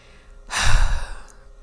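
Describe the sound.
A single breath is exhaled close into a microphone, a breathy, sigh-like rush that swells suddenly and fades out within about a second, with no talk.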